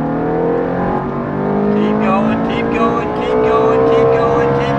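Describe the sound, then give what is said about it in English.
A Ferrari sports car accelerates at full throttle down a track straight, its engine giving a loud, sustained harmonic roar that rises steadily in pitch. “you kept going in the Ferrari. I did, and then we went full throttle. Full throttle all the way here, all the way down the straight.”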